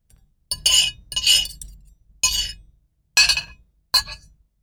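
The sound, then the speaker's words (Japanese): Dishes clink as someone eats: several sharp, bright clattering bursts of ringing crockery or glass, spaced irregularly with short silences between them. “この人は何をしていますか？ 食べていますね。”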